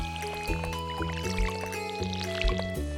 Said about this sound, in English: All right, and then let's fill up our watering can.